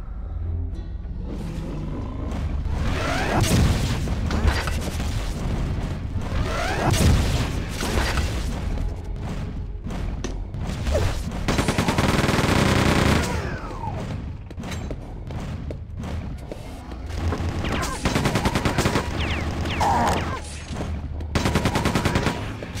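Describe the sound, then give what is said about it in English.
Shell shots fired in a video game, heard as dense, loud runs of gunshot blasts and booming impacts that pile up into near-continuous gunfire, with a few brief lulls between bursts. “What shells do we got? Alright, here we go. Let's make our first shot really count,”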